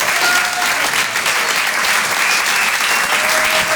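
Theatre audience in Paris applauding a stand-up comedian as he comes on stage, a steady wash of loud, dense clapping that continues without a break.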